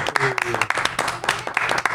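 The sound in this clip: A round of applause breaks out for a guest in a restaurant, many quick claps forming a busy patter while people talk over it.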